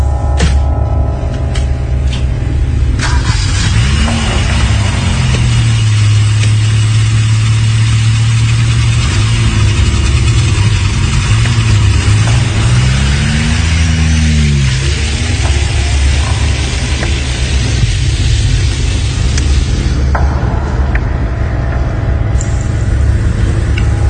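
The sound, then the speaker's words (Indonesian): A used 1990s car's mid-pitched engine idles and revs as it drives off after refuelling. The loud steady drone is broken by a few rising and falling rev sweeps under constant road-like noise. “Setelah mengisi bensin, kami pun mulai tancap gas pulang ke Bandung.”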